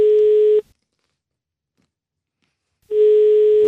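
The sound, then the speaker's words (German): A telephone ringing tone sounds while an international call is placed: one steady tone, then a long silence, then the same tone starting again, with no talking. “Und rufen wir mal an. Schauen wir mal, ob da jemand rangeht.”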